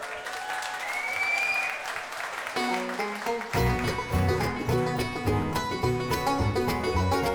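Audience applause welcoming a bluegrass band, dense clapping that gives way partway through to the band starting to play, with bright string notes and a steady rhythm.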